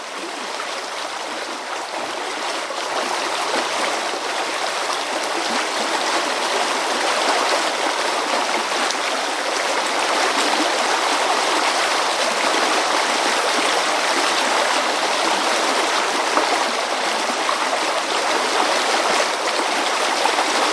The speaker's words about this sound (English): Examples include the River Allen, which flows through the town,